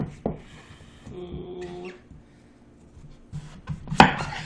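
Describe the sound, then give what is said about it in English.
A knife chops butternut squash on a board: a few sharp, uneven cutting knocks with quieter handling and scraping in between, and a louder chop near the end. “I'm nearly done cutting up the squash.”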